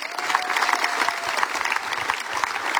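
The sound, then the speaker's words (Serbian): Audience applause greeting a singer on stage, a loud, dense and even wash of clapping from many hands that runs unbroken to the end. “па ћемо га теплин аплазон и поздравите.”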